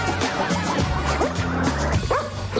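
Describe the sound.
A dog barks at a woman, giving a few sharp, loud barks and high yips in quick succession.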